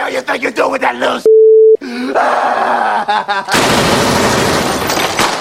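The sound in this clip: Gunfire in a comedic radio skit: loud shouting voices and a short steady electronic tone come first, then a dense, noisy burst of rapid shots carries on to the end.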